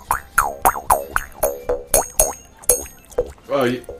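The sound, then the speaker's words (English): A mouth harp played in a rapid string of tinny, wet twangs, each with a springy falling boing. The run ends in a longer wobbling tone. “You know what I have? I have a mouth harp.”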